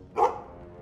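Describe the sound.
Dog giving a single short, faint bark, a quick yelping burst lasting under a quarter second, followed by quiet background.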